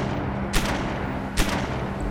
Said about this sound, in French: 3 coups de feu explosent, couverts par le claquement des vagues.